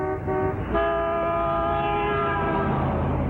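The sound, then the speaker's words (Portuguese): Car horn blaring on a faulty car. A loud, sustained, harmonic tone wavers briefly near the start and then holds as a steady blast for about three seconds. “A única coisa que funciona é a droga da buzina.”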